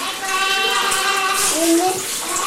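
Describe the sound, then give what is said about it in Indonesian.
Water runs and splashes while children play with it, like a tap or tub filling, as a steady rushing wash. Children's voices are heard over the water. “Airnya sayang tuh dibuang-buang.”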